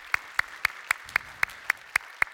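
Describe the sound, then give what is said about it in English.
Applause from the in-person church audience welcoming the online family: nine sharp, evenly spaced claps in a steady, even rhythm, with no voices heard. “So if you guys here in person would, put your hands together. Welcome in our online family this morning.”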